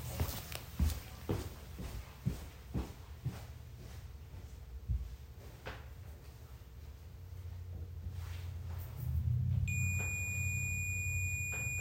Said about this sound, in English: and you hear me walking away